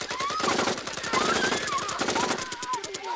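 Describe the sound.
Rapid automatic gunfire from the Minutemen firing on command rattles throughout in fast repeated bursts, with voices heard over it.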